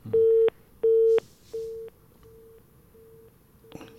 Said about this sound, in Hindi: Phone disconnect हो गया है।